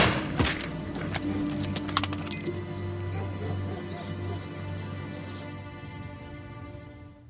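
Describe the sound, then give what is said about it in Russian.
Gunshots from a Browning pistol: a few sharp, loud cracks come in the first two seconds over a low steady hum, which then fades gradually. “В его руке браунинг. Выстрелить Семчук не успевает. Чекан стреляет первым.”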